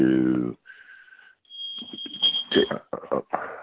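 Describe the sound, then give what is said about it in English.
A building alarm sounds as a high electronic tone, first a short beep after a brief voice, then a sustained high whine running beneath ongoing talk. “that's the alarm. I'm sorry. I think it's the building alarm.”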